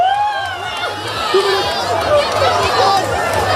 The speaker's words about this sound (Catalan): I el que sentim al final és l'ambient a la platja del Gurugú, a Castelló de la Plana.